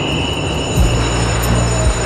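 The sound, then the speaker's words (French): Steady rumble of a train at a railway station platform, a continuous low mechanical drone with a faint high whine running throughout, alone without voices. “On est sur un quai de gare. Il la remercie de l'avoir accompagné à la gare.”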